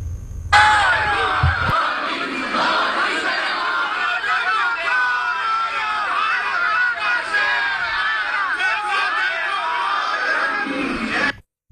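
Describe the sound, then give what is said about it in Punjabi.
Crowd of Indian community members shouting and cheering as Modi arrives. Many voices overlap continuously and loudly for about eleven seconds before an abrupt stop. “ਉਨ੍ਹਾਂ ਦੇ ਪਹੁੰਚਣ ਤੇ ਬੁਰਾ ਸਥਾਨ ਮੋਦੀ ਮੋਦੀ ਅਤੇ ਵੰਦੇ ਮਾਤਰਮ ਦੇ ਨਾਰਿਆਂ ਨਾਲ ਗੂੰਜ ਉਠਿਆ।”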